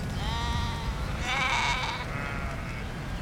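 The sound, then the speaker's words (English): A ewe with her lambs bleats several times, wavering, nasal cries in a few drawn-out calls over a constant outdoor rumble. “I think that is the only ewe I have this year with lambs. She came towards you.”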